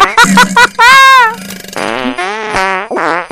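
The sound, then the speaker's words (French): A string of fart sounds, wet ones toward the end, starting with a few short, loud blips, then a long tonal blast and several more drawn-out, buzzy ones. “Tout le monde aime les pets. Tout le monde, surtout les pets sauces comme ça en finale.”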